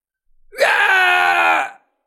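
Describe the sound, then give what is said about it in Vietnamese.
A man cries out in pain after being struck hard in the face: a single loud, drawn-out voiced wail lasting about a second, heard alone. “Kim Dực kêu to một tiếng”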